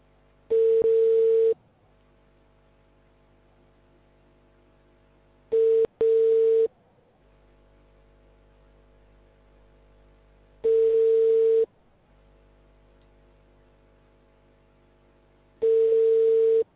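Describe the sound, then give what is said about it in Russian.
Telephone ringback tone while an automated call system dials a customer for a company, with four steady mid-pitched tones about five seconds apart. The second tone is briefly broken, and a low hum sits between them. “Для соединения с абонентом. Начинаем звонить абоненту. Ожидайте соединения.”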